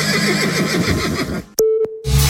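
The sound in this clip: A horse whinnies in a long, wavering call for an ad for a Balkan dressage riding championship, followed by a short steady electronic tone and a low rumble.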